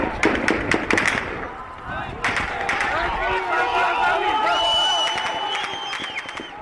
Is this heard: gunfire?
yes

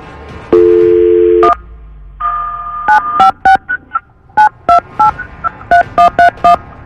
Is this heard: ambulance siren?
no

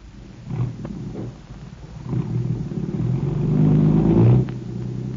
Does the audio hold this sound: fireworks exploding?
no

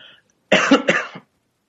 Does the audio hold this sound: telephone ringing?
no

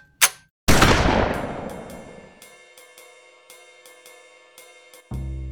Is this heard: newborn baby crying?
no

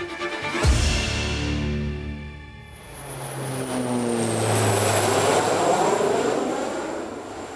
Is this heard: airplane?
yes

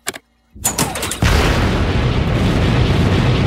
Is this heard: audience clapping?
no

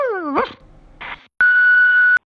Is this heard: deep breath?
no

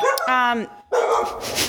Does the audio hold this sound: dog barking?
yes

